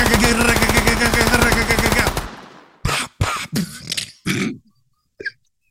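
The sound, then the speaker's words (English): A Tommy gun from a film clip fires one long, rapid, loud burst of automatic fire, followed by a few short, separate sounds. “Those are classic Tommy guns. Straight up. They got 15,000 bullets. They got so many bullets.”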